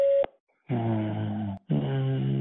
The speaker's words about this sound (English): Please record your message. Record after the tone. Hit any key when you're done.